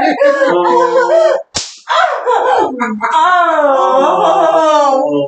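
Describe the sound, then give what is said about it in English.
A sharp slap from a combination spanking device during a spanking demonstration: a single crisp smack breaks in between sustained, high-pitched voiced sounds, with a brief second impact just after. “they're actually put together in this neat little combination device to spank and hit.”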